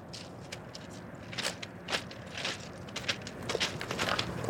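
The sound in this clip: Footsteps walk toward the Mississippi River levee in a long, irregular series of soft crunching, scuffing steps that grow gradually louder toward the end.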